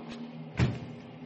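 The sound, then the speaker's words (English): A bulkhead door on a ship closes with one dull, low thud over a quiet, faint background hum. “Come along, we'll close the bulkhead door.”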